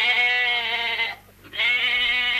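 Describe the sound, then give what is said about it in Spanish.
A sheep bleats twice, each call long, steady and nasal with a bright, buzzy tone, separated by a brief pause. “Oveja.”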